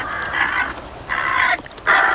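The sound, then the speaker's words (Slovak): Crows caw loudly while flying overhead, giving three long, harsh, drawn-out calls separated by brief pauses. The last call is cut off at the end. “Vrany však na spútaného mladíka nezaútočili, len nad ním lietali a krákali z plných plúc, ako by im samým išlo o život.”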